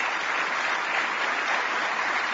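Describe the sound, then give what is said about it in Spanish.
Applause for a group of track-and-field athletes and their coaches as they are announced at an event: a dense, even wash of clapping that holds at a steady, fairly loud level from start to end. “El aplauso para ellos.”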